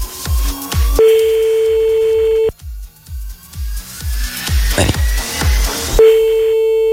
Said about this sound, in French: On appelle le premier. S'il décroche, dès que tu n'entends plus la musique en dessous de toi là, tu peux dire allô.